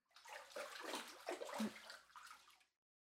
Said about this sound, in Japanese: 体流して上がりましょう。